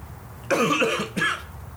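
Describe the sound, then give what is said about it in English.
Two coughs, a longer rough burst followed by a shorter one, each sharp and breathy against a quiet background, with no talk. “not living dangerously got you that cough”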